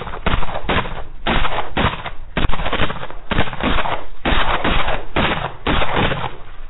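Gunfire in a battle, fired on command: many loud shots crack out in a steady, rapid series, with bursts following one another without pause through the whole stretch.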